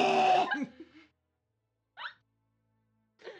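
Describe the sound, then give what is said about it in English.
A voice imitates gagging on something lodged at the back of the throat: a strained, voiced retching sound followed by two short, sharp throaty bursts after pauses. “it's like when you almost swallow something you don't want to swallow, and it's kind of like right in the back of your throat. Mm. Yeah. And you kind of have to do that weird thing where you just go to try to get it back out. So you're not choking and suffocating yet, but you're just going.”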